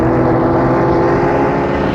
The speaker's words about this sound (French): il a entendu une voiture aller à vive allure derrière lui